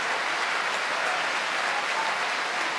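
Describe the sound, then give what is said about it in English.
An opera house audience cheers and applauds the soprano who sang Desdemona. The clapping is dense and unbroken, a loud, uniform roar that holds at one level with no pauses for the whole clip. “An enormous cheer for Maria Agresta, tonight's Desdemona.”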